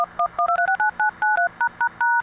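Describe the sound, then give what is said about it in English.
Touch-tone dialing of a long distance telephone call: a rapid run of many short, clear two-tone beeps at a steady pace, separated by brief gaps, with no voices. “You can dial long distance almost as fast as a local call.”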